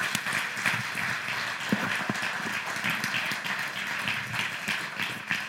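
Church audience clapping to welcome members coming out on stage: a continuous patter of many hands, fairly even in level, with a few sharper individual claps standing out.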